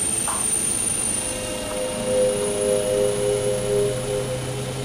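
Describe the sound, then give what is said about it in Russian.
Steady droning aircraft engine as a plane takes off from runway 24, a continuous hum with a thin high whine and no voices, holding nearly even in loudness throughout. “Повторяю, разрешаю взлет на полосе 24, прием.”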